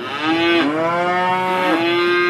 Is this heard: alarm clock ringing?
no